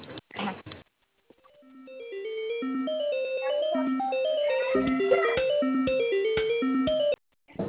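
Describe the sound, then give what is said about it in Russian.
A telephone tone plays while a call is transferred, a melodic electronic tune of stepping notes that swells in and carries on steadily for several seconds before cutting off. “Так, на Мимоз сейчас я вас переключу. Да. Давай. Ожидайте.”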